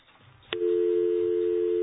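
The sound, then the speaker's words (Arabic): A telephone line on a radio call-in cuts out: low line noise gives way to a sharp click, then a steady, unbroken tone holds loud to the end. “عم يقطع الخط، عم يقطع الخط.”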